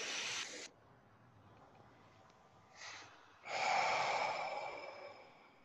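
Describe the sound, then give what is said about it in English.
A huge deep breath taken with eyes closed and spine held straight. A loud, airy rush of breath comes first, then a softer short breath, then a long, breathy whoosh that slowly fades, with no words spoken. “I'm just take a huge deep breath.”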